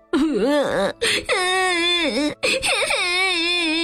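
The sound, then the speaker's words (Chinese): A boy in a children's story sobs sadly while stranded in space, voiced as several drawn-out wailing cries with quavering pitch and short breaks between them. “丹尼伤心地哭起来。”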